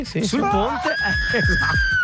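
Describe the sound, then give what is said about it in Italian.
A person at a Scream Club lets out a long, piercing scream and holds it at a steady high pitch, with speech-like voice sounds running beneath it. “E ha urlato così.”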